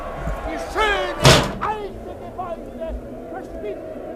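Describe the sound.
A window is shut with a single loud bang in a crime radio drama. Voices and a background murmur of a crowd are heard before and after the slam.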